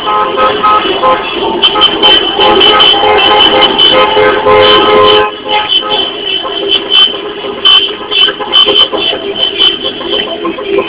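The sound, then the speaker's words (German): Long convoy of cars driving along Nørrebrogade, a Copenhagen street, with horns honking: a dense, steady traffic roar with repeated horn toots, easing somewhat after the midpoint. “Eine riesen Schlange von Autos, alle haben palästinensische Flaggen.”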